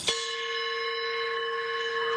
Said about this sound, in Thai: ยกระฆังรถไฟ หรือระฆังโรงเรียนนะครับ